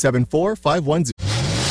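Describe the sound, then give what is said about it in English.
Car engines revving at a classic car, truck and motorcycle show: a few loud rising and falling revs, then a steady, even roar. “Rev up those engines, Low Country.”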